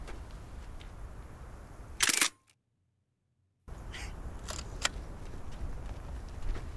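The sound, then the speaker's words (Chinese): Camera shutter clicks as a photo is taken: one sharp, loud mechanical burst, a moment of silence, then a few fainter clicks. “拍照啊。”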